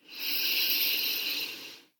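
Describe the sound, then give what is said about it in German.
A deep breath taken during an EFT relaxation exercise sounds as one long, steady, airy hiss that swells in quickly, holds, and fades away at the end. “Atme nochmal tief ein,”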